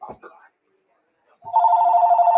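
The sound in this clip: A telephone rings with an incoming call. A brief voice comes first, then a short pause, and then a loud, steady electronic ringtone begins and keeps going to the end.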